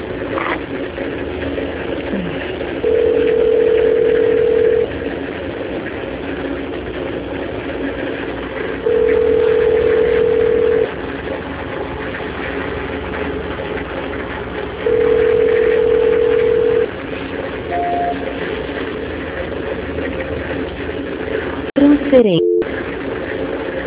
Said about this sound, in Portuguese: Só um minuto, por favor, que eu vou transferir a sua ligação. Transferência.